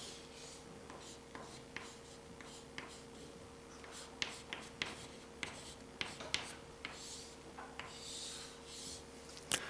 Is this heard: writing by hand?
yes